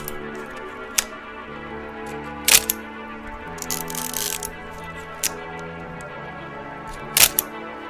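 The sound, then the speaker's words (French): A film camera's shutter clicks as a photo is taken: a few sharp, crisp mechanical clicks and a brief rattling burst over a soft, steady tonal background. “Ce bruit que vous venez d'entendre, c'est celui de l'appareil argentique au moment où on prend une photo.”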